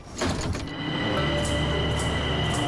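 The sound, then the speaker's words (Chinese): A subway train approaching a station, its loud, steady rumble swelling in at the start and then holding as a continuous roar with a sustained mechanical whine and hum over it. “列车运行前方是国贸站。”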